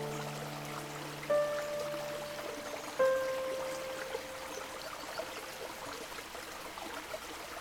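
A river in Brittany flows with a faint, steady trickle and soft rippling, the quiet water texture carrying on evenly with a few small splashy accents.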